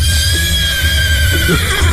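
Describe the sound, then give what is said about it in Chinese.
Horses neighing and whinnying around their feed, with loud, sustained calls that stay strong and steady throughout the moment. “来，哎，伙计们啊，看在我这个老马夫的面子上，都安静一点，好好吃草料啊！”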